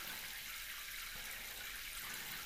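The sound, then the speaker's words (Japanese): Slightly hot running water rinses during a hair wash, making a soft, steady hiss. It stays faint and even throughout, with no talking. “はい、少しだけ熱いお湯でこれで流し終われば、”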